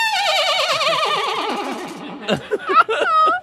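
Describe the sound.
A person's voice imitates a horse whinny: a long, wavering, high-pitched neigh that slides downward, then a few short, choppy vocal bursts.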